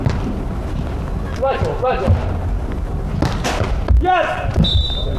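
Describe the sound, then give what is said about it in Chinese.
Volleyball serve by Sun Xinglong: a few dull ball thumps cut through steady crowd noise while commentators talk over the match. “孙兴龙发球。”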